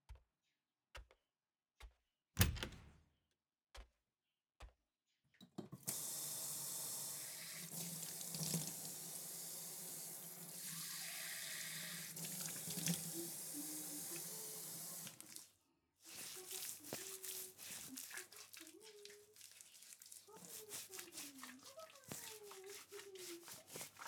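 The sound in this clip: Water running from a sink tap as someone washes their face: a steady hissing stream lasting about ten seconds, preceded by a few sharp clicks and followed by people talking.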